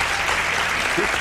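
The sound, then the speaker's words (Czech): Studio audience applause during a televised quiz segment, heard as a brief burst of dense, even clapping that lasts little more than a second. “Potlesk pouze pro vás.”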